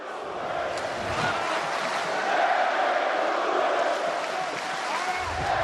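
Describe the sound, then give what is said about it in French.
Fight crowd chanting and cheering for their fighter, a professional bout, forming a loud, steady roar of many voices that holds at an even level for the whole stretch. “Le public qui chante, qui encourage son combattant.”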